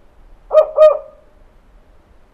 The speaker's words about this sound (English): That's a recorded spotted owl call being played